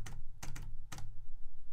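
Typing on a computer keyboard: a few crisp, clicking keystrokes in quick, uneven succession, heard alone without talk.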